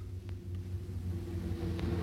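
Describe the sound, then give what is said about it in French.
A car arriving, heard as a low, steady engine rumble that grows slightly louder over the short span, with no voices. “Voilà une voiture.”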